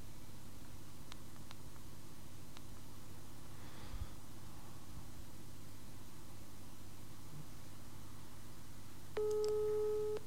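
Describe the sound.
Telephone call ringing tone: quiet hiss with a few faint clicks, then a steady electronic ring tone for about a second at the end.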